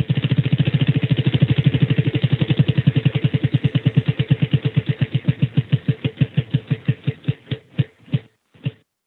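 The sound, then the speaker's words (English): A prize wheel spins during a quiz game. It makes a long run of steady clicking that gradually slows, the clicks spreading farther apart until a final few isolated ticks, with no voices. “Let's spin the wheel.”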